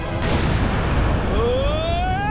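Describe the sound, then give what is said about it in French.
Explosives blowing up a lava mountain make a loud, continuous roaring rumble that fills the whole clip, with a thin tone rising in pitch over its second half. “Les explosifs sont prêts. Eh bien, maintenant, croulez, montagne de lave. 3, 2, 1...”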